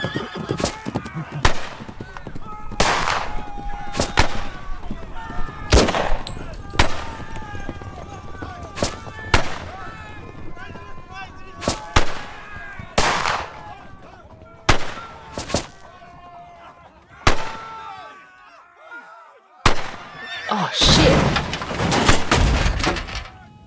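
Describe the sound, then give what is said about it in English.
Gunfire in a shootout: many sharp, loud gunshots crack at irregular intervals, with horses whinnying and neighing between and under the shots. “Lead's about to start flying. Right here, boys. Shoot to kill, just watch where you're aiming.”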